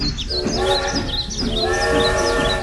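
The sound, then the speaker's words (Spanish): A cartoonish train sound effect in a children's story, made of steady whistle-like tones that run continuously, with high warbling chirps above. “Y nuevamente, el tren continuó con su recorrido a la siguiente estación al sonido del...”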